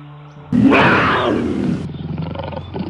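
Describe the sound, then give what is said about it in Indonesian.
An angry tiger on a grassland, about to pounce on a deer, gives a single loud, harsh roar lasting about a second. The roar trails off into lower, pulsing rumbles. “Tio melihat di depannya ada seekor harimau yang akan menerkam seekor rusa.”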